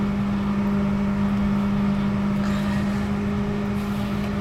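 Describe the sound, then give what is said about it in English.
Microwave oven running on its popcorn setting, giving a constant low hum with an even whirring drone that holds steady throughout, with no talk. “I'm going to press start. And hit popcorn. Takes a couple minutes for the popcorn to be made,”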